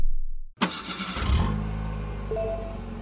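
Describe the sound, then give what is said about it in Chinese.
A manual-transmission car's engine starts after a moment of silence: a sudden, sharp burst of cranking, then a steady, loud low rumble of idling that continues to the end. “虽然我有驾照，但这车是手动挡的，我不怎么会开啊。”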